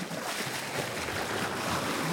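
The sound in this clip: A sailboat in an ocean race runs downwind under spinnaker. Continuous rushing wind and sea noise plays at a fairly even level with no single sharp bang standing out.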